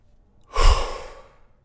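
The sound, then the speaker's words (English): A person takes a single deep breath, heard as one soft, airy exhale that swells and then slowly fades, with no talking. “The first thing is just addressing it through our breath. So often just taking a deep breath like,”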